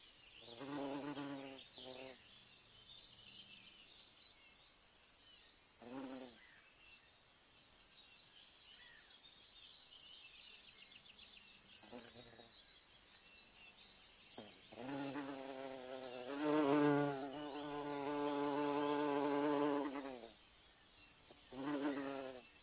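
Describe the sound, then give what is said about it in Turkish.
A bee buzzes in several intermittent bursts of droning hum separated by quieter gaps. The longest and loudest stretch comes in the latter part, with no voices. “Bee. Bal arısı. Biene.”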